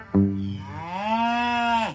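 One long cow moo, loud and alone, that starts low and buzzy, lifts in pitch partway through, holds steady, then drops off sharply at the end.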